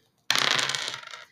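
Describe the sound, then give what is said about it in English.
Dice roll and rattle with a sharp onset, then a dense run of small clattering clicks for about a second before settling, with no voices. “all right, that's the sound of the dice.”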